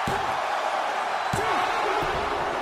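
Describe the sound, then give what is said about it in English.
A pro wrestling power slam sounds as heavy thuds, a few of them, over a constant loud crowd roar in the arena. “Power slam. And another pin.”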